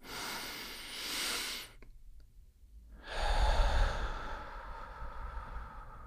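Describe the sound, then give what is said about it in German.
A deep breath taken in through the nose and let out through the mouth during a guided breathing exercise: a soft, airy inhale, a brief pause, then a longer, louder, breathy exhale. “als erstes nehmen wir gemeinsam einen tiefen Atemzug durch die Nase ein und durch den Mund aus”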